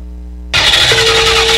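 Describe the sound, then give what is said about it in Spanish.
A car engine cranking without catching, an abrupt grinding rush that bursts in after about half a second of silence and runs on steadily to the end, with a thin steady tone inside it. “Es que fíjate que me vine al salón y no me arranqué el carro.”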